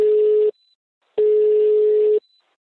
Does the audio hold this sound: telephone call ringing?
yes